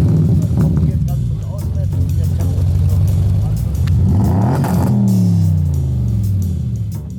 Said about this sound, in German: Vorschlag Nummer 1, der Audi RS6 mit 579 PS.